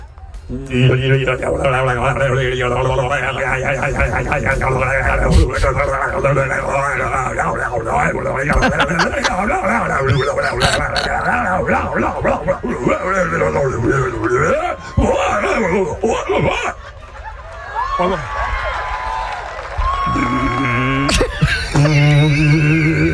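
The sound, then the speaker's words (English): Contest-winning human imitation of a Bigfoot call: a man's voice produces long, loud, wavering howls and moans that slide up and down in pitch, sustained with only brief breaks. “I was just curious what a Bigfoot call sounded like. Right. This is the winning call. We're not going to play the whole thing because the guy goes on for like 40 seconds and it's going to drive you crazy after just a few. But here we go. I love the deep breath at the beginning.”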